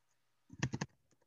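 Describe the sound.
A quick burst of typing on a computer keyboard as a message is written into a group chat: three crisp keystrokes in fast succession, heard alone against near silence.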